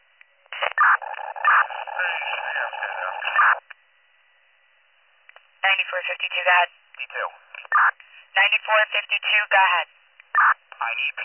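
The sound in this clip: Fire dispatch alert tones on a radio channel: one steady tone block lasts about three seconds, then narrow-band radio voice traffic follows in several short bursts.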